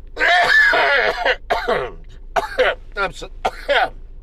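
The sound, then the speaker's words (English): Harsh coughs and throat clearing from a post-nasal drip come in several rough, raspy bursts separated by short pauses, fairly loud and close. “it's a post-nasal drip type cough”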